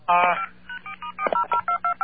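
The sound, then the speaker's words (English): Touch-tone telephone dialing, a rapid run of short, evenly spaced dual-pitched beeps, each cut off crisply, following a brief voice at the start. “You're going to have to dial a 9 first. Do you have a touchtone phone?”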